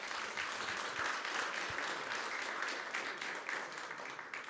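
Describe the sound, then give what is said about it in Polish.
An audience at an award ceremony keeps up dense, steady applause during a prize presentation. The clapping holds an even, rushing level throughout without any clear voices. “Czas na oklaski jest zawsze dobry.”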